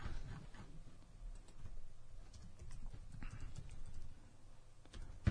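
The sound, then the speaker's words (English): Typing on a computer keyboard to enter a search query, with many quick, faint, uneven key clicks over a low background hum. “Type in Cord Overstreet headshot.”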